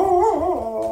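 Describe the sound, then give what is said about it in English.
A dog howls as its owner comes home: one sustained, tuneful howl with a wavering pitch that rises and dips over about a second, heard alone with no voices. “That is my dog, Pete. Every time I come home, he does that, and he will continue to do it for like a minute or two.”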